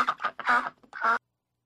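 Duck quacks used as a sound effect: a quick series of several nasal, buzzy honks of uneven length, loud and alone, stopping abruptly before a stretch of silence.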